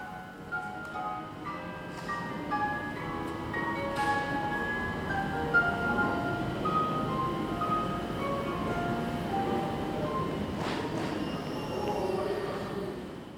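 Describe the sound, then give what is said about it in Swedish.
Inside a large, warm railway station building with trains, a steady ambient murmur carries sustained tonal squeals and hums, with a few sharp knocks and clatters scattered throughout. “då tar man några steg in i den stora, betydligt varmare stationsbyggnaden. Där ljudet av bänkens röster följer en bit på vägen och sen avlöses av helt andra ljud.”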